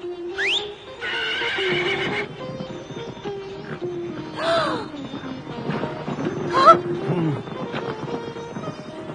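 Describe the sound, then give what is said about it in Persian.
A carriage horse whinnies at a wedding with a few loud, shrill neighs, one near the start rising sharply, followed by snorting and rough breathy calls. Noise continues throughout. “هر چی هم من بگم این اسب انجام میده”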